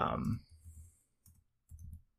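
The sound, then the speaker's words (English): Typing on a computer keyboard: a few short bursts of clicks and soft key thumps, separated by brief pauses, at moderate to faint loudness. “I'm trying to type and talk at the same time.”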